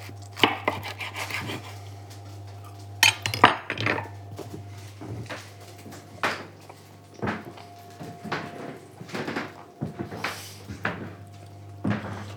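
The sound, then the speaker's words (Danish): A knife cuts through a fried sausage just taken off the pan, giving many sharp, irregular knocks of the blade against a board over a steady low hum, with no voices. “Nu tager jeg pølsen af panden og skærer i den her.”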